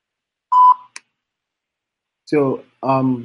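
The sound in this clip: A short telephone keypad tone at a voicemail prompt, one steady beep followed by a faint click, then a pause before a person begins speaking.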